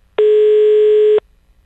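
A telephone tone sounds while a call is being placed: a single steady, clean tone that holds for about one second and then cuts off, with nothing else heard around it.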